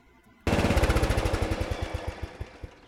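Engine of a riding mower with a 12-volt battery starter bursts abruptly to life and runs with a loud, rapid, chugging throb, its pulses growing slightly more spaced toward the end.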